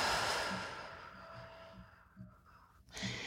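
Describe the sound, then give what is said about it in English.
Slow, deliberate breathing during a guided breathing exercise: a long, soft exhale that gradually fades, a quiet stretch, then a fresh breath rising near the end. The breaths are faint and airy. “And exhale. Inhale and exhale.”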